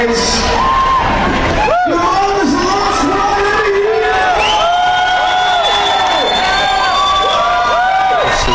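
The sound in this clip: A crowd cheers as T-shirts are tossed into the audience at the Interbike trade show. Loud whoops, yells and shouts overlap continuously, with excited voices surging throughout.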